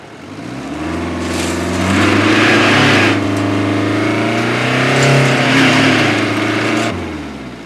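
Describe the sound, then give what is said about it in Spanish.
A van's engine revs as it reverses and its wheels spin stuck in sand, a loud sustained roar that rises, holds, swells a second time and then drops away, with a rough hissing noise over it. “Pero las ruedas quedan encalladas en la arena y baja de la furgoneta.”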